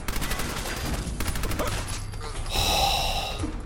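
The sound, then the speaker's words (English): Submachine gun fire in a video game: rapid bursts of shots rattle in quick succession, fairly loud, then give way to a denser, noisier stretch. “Great, I use 35 rounds. Okay, well, maybe I'm not such a crack shot with the submachine gun as I thought.”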